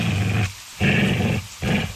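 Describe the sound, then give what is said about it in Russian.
A wet poodle growls disapprovingly in three low, rough bursts separated by short pauses. The growls are moderately loud, with no talk. “прошел мокрый пудель. Учуяв кота Ангорского, он неодобрительно зарычал, просто так, чтобы лишний раз высказать о нем свое мнение.”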